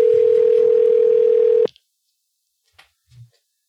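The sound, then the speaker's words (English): A telephone line tone sounds while a call is being placed: one steady, loud, unbroken tone lasting about a second and a half, then cutting off abruptly. A few faint clicks follow in near silence. “we're going to make our first call. Let's do this.”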